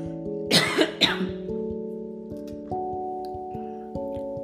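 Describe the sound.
A person coughs and clears their throat in two harsh, abrupt bursts close together, over a steady backdrop of sustained, held musical tones that continue after the coughing stops.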